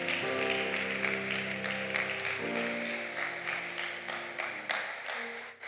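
A church audience applauds over sustained organ-like tones. The chord shifts partway through while the steady clapping continues, easing slightly toward the end.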